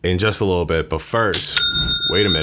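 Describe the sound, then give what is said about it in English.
A bright bell-like chime, an online store's new-sale notification, rings once between stretches of talk, a short clear ding with high ringing overtones that fades quickly before the speaking resumes. “Did you hear that sound? Because I heard it. That was the sound of another sale on Shopify”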